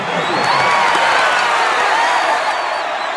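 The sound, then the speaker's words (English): A crowd goes wild at the Hunger Games, a loud and unbroken roar of cheering, applause and whoops that stays dense and even throughout. “And we wish you happy Hunger Games, and may the odds be ever in your favor. The president smiles benignly as the crowd goes wild”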